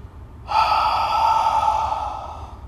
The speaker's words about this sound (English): Inhale, nose. Exhale, mouth.